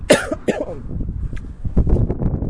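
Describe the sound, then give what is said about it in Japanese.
Coughing from corn caught in the throat: two sharp, harsh coughs in quick succession, then quieter throaty rasping and breathing as the throat clears. “失礼。コーンが喉に詰まった。ゲフン。”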